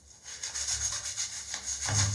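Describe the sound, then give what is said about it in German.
Tile grout is scrubbed after a strongly foaming cleaner has been applied. Rough, rhythmic rubbing strokes repeat many times in quick succession, moderately loud and without talk. “Und dann packt ihr das eigentlich letztendlich einfach nur auf die Fugen drauf. Und dann wird geschrubbt.”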